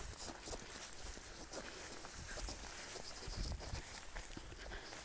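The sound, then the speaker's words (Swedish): Faint footsteps of someone walking past a small, snowless, grassy sloping patch: many soft, quiet steps in a loose rhythm over a low hiss of outdoor background noise, with no talking. “Ja, nu går jag förbi här. Så nu måste jag vara tyst.”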